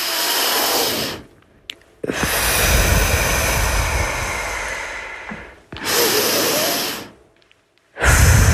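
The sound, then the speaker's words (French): Slow, deep breathing during a relaxation exercise: long, loud, airy breaths follow one another, separated by short quiet pauses. “Et puis ensuite, nous allons respirer profondément.”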